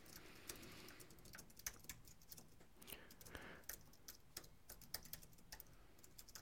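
Quiet, rapid keystrokes on a computer keyboard as a search phrase is typed, many light, irregular clicks following one another in quick succession.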